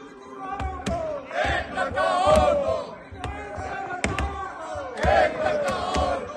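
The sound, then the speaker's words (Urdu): Opposition members of parliament chant slogans in protest against a bill on lawmakers' salary increases: loud massed shouting from many overlapping voices, surging and falling throughout. “اس موقع پر opposition ارکان نے بل کی مخالفت کی اور نعرے بازی شروع کر دی۔”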